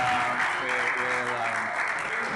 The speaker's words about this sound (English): I got a clap for both poems, which is amazing because a lot more work went into the other one than went into that one